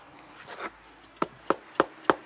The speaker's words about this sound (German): Jetzt reibe ich hin, bis er knirscht.